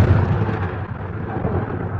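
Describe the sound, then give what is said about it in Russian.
Thunder rumbles as a sound effect in a continuous, loud, low roar that holds steady throughout without distinct cracks. “Гремит гром”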